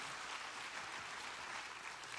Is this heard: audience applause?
yes